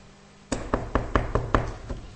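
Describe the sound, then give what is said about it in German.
Six sharp knocks on a front door, evenly spaced and fairly loud, over a faint low hum, with no voices. “vor deiner Haustür steht und klopft an.”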